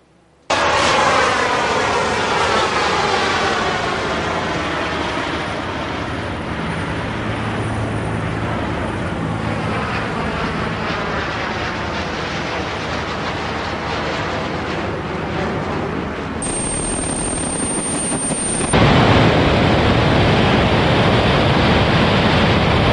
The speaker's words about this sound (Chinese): 在杜拜的。世博会上面有一个公司推出了人类飞行计划，它长得跟刚刚的背包有那么一点不一样，它长得比较像三角形，一个呃蝙蝠的翅膀那个形状吧。它有试飞的影片呢，看一下。